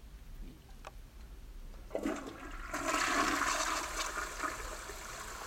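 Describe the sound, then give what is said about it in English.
A toilet flushes in a wash closet: after a quiet start, a sudden rush of swirling water surges up, stays loud for a couple of seconds, then settles into a softer refilling trickle. “Sorry to do this, Orion, old chap, but I must relieve myself in the wash closet as well.”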